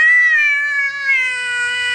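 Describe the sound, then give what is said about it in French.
A single drawn-out cat meow, a clear tonal call held for about two seconds, fairly loud and heard alone, its pitch drifting slightly downward toward the end. “Un kitty.”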